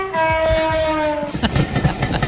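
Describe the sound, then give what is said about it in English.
Train sound effect: a loud, sustained horn-like tone gives way after about a second and a half to the rhythmic clatter of carriages rolling over the rails, with no talk. “There you go. That's a train sound. Got that, so I play it.”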